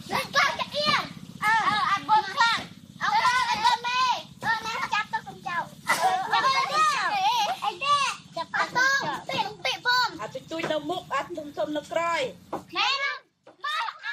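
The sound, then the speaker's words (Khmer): Kavet indigenous children playing folk games and singing on a riverbank in Stung Treng province, Cambodia: lively, high children's voices chatter, call and sing over one another in a busy, continuous stream. “នៅមាត់ទន្លេហ្វេកុងក្នុងភូមិអូចាយនៃស្រុកសៀមប៉ាងខេត្តស្ទឹងត្រែងគេឮសំឡេងក្មេងៗជនជាតិដើមភាគតិចកាវ៉ែតលេងល្បែងប្រជាប្រិយនិងច្រៀងលេង”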